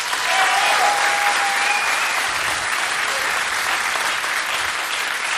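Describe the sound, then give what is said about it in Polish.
Audience applause at a concert celebration, a steady dense wash of clapping that stays loud and even throughout with no talk over it. “Zofia Sylwin jest sprawczynią tego święta, to jeszcze oklaski dla niej”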